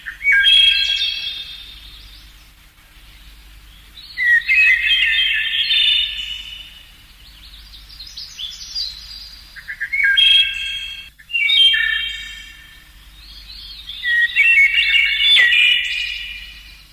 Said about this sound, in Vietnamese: Một con họa mi tập hót, cất giọng hót những tiếng véo von vang lên trong khu vườn yên tĩnh.